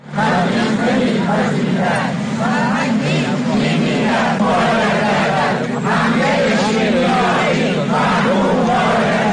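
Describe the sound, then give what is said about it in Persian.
Teachers at a protest rally in Kermanshah chant together, a loud, dense crowd of voices shouting slogans in a continuous rhythmic roar with no pause. “این صدای معلمان در کرمانشاه در تجمع امروز بود”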